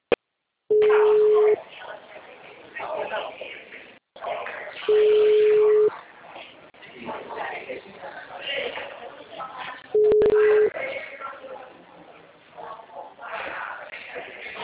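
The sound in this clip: Telephone ringback tone heard before a call is answered: three steady, one-second low beeps spaced several seconds apart, with people talking throughout and over the gaps.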